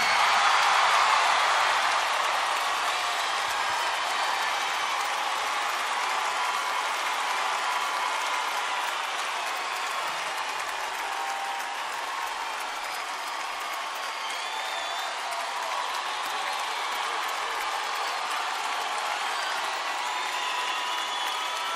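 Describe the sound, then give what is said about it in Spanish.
Audience applause welcoming a guest singer at a live concert, dense sustained clapping mixed with crowd cheering and scattered whoops, loud and continuous, slowly easing slightly over about twenty seconds. “Yo quiero que reciban con un fuerte aplauso a Alex Campos.”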